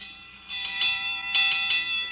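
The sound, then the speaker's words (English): An alarm bell ringing at a firehouse, thin and tinny, in two short bursts of rapid repeated strikes over a faint steady hum. “That alarm is still ringing.”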